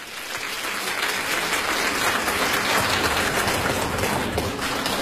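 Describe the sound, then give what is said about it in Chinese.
Loud, dense audience applause at a live group crosstalk comedy performance, a steady roar of many hands clapping that holds evenly for the whole stretch with no voices over it. “感谢大家热烈的掌声，当然这个掌声再热烈点就更好了”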